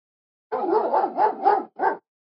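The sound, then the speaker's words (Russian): A dog barking: a short, quick run of rough, mid-pitched barks in one burst, with a final bark after a brief pause, alone against silence. “Впереди залаяла собака.”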